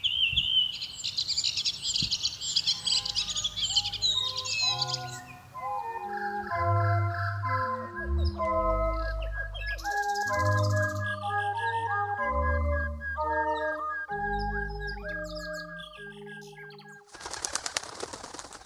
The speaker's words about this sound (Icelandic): Líklega söngur skógarþrasta dæmi söng sem bæði mótaður af umhverfi og erðum.